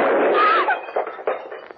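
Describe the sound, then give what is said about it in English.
A gunshot rings out from a gun fired by accident indoors: a loud, harsh blast right at the start, decaying into rough noise broken by a few sharper knocks. “You were holding that gun near your body when it exploded.”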